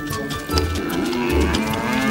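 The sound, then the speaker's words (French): Cows lowing as they are untied and led out to graze near the jungle; a couple of deep, drawn-out moos rise over a steady outdoor background. “Krishna avait détaché les vaches et les avait emmenées paître près de la jungle.”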